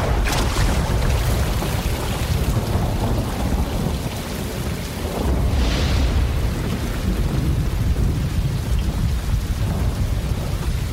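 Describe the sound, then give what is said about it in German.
A thunderstorm with steady, heavy rain hissing and pattering throughout, thunder rumbling low underneath and a brighter crack of thunder swelling near the middle before the downpour carries on, no voices. “Das ist Gewitter, glaube ich.”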